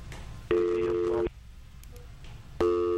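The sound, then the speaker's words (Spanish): Telephone busy tone after a dropped call: steady electronic beeps of even pitch, a long tone followed by a pause and then another starting, fairly loud and with no talk over it. “Parece que se nos cayó la llamada.”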